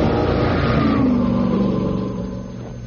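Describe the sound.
An Alfa Romeo car engine revs in an advert, a loud throaty roar that holds strong before easing off and fading lower toward the end.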